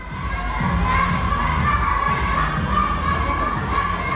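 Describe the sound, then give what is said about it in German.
Children shout and call out while training in the large hall of a taekwondo club near Bonn, a continuous noisy babble of young voices at a fairly steady level. “Es hört sich ein bisschen an wie Kindergeburtstag im Fitnessstudio. Aber in der großen Halle des Taekwondo-Vereins Swisttal in der Nähe von Bonn trainiert die kommende Taekwondo-Elite Deutschlands.”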